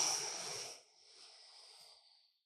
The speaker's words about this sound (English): And now blow it all out as big as you can.